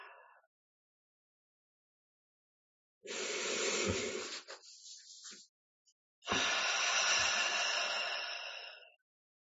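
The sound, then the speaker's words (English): Long, deep breaths from a group during a meditation session, heard as two drawn-out, soft, airy breathy swells separated by a pause, with no talking. “we start with three community breaths. They can be long and deep, inhaling.”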